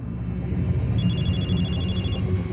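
A phone rings with a quick, repeated high electronic trill that lasts about a second, set against a loud, dense, steady low background that runs through the whole clip.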